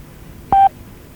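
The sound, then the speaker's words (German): A radio time-signal beep: one short, steady, mid-high electronic tone lasting a fraction of a second, sounding alone against faint background hiss. “Beim nächsten Ton ist es 11 Uhr, 3 Minuten und 10 Sekunden.”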